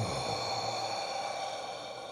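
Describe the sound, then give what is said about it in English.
During a breathing exercise, a slow exhale follows a deep breath: a soft, steady airy rush that fades gradually over two seconds. “Take a slow, deep breath in. Expand the body. Let it out nice and slow.”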